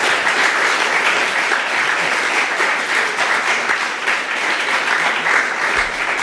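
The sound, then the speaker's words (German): An audience applauds after a talk at the GPN hacker event. Many hands clap in a loud, even wash that holds steady throughout. “Dann noch einmal Applaus.”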